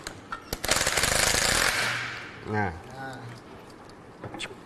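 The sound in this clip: Loud, rapid rattling of a power tool removing the nuts of a rear clutch assembly, a dense burst lasting about a second, followed by a person talking.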